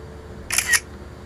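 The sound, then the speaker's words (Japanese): A camera shutter fires once while someone photographs a cat statue at a night market. The shot gives a quick double click, two crisp snaps close together, fairly loud over a faint background. “ちょっと写真に撮っておこうかな。”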